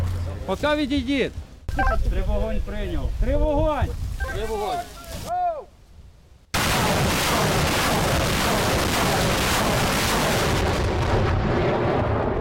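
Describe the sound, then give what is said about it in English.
A salvo of seven rockets is fired, heard as a loud, sustained rushing roar that takes over after several seconds of talk and holds steady to the end. “That's 7 rockets. That's the biggest salvo they've fired so far.”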